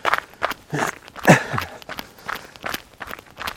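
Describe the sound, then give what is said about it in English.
Footsteps of a runner doing laps on a road around a farm: many quick, regular thuds of shoes striking the surface, in a steady running rhythm with one step landing harder than the rest. “Okay, so I've been running several laps around a farm here on a road, but I think I'll turn the other way now”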